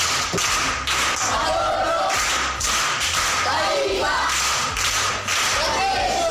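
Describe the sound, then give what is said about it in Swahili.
Rhythmic group clapping for a pupil at a primary school proverb session: steady, repeated thumping claps from many hands, with faint voices above. “Makofi kwa mjomba.”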